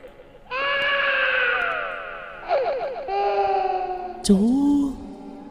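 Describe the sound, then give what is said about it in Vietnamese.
Eerie, childlike crying is heard as a sound effect in a horror story: a loud, drawn-out tonal wail, then quivering broken sobs, and another wail that starts with a sharp burst and wavers. “Bỗng nhiên là có tiếng khóc. Là có tiếng khóc.”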